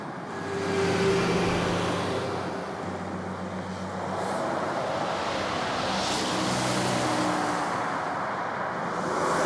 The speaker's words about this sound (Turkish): Otobanda otostop yapıyor. Tırlar hızla geçiyor yanında.